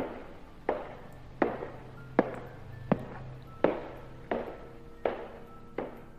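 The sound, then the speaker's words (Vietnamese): Eight slow, evenly spaced footsteps ring out along a cold prison cellblock corridor at night, each sharp impact trailing off in a short echoing decay, with no voices. “Tiếng bước chân vang lên trên hành lang của khu phòng giam lạnh lẽo.”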